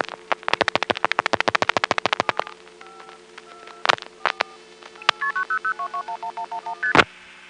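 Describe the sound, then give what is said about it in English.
Touch-tone dialing of a telephone call to a 900 area code: a fast run of many short, crisp tone bursts, a few scattered clicks, then a steady series of evenly spaced keypad beeps with shifting pitches. “I'm going to dial a 900 area code call and notice how it routes and where it goes.”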